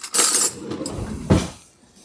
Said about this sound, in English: Okay, got a good mash in here, and I'm going to grab a spoon and give it a quick taste.